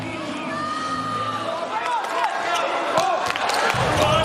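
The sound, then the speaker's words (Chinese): A volleyball serve is struck during an international match involving the US team, a sharp slap of the ball over a steady, loud crowd roar, with a commentator talking. “克里斯滕森的发球”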